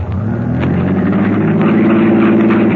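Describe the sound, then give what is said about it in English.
Car engine of a vehicle stuck in mud, running steadily and loudly throughout with a continuous mid-pitched drone and low rumble, no voices over it. “Start your motor.”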